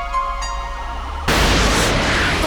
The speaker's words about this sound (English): Mayday, mayday, come in, Volatar. This is GS Cruiser 1. We've been hit. I repeat, we've been hit. No, this explosion is internal.